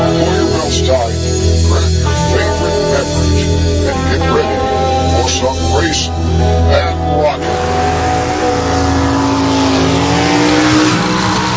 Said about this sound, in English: Drag racing, both now and then.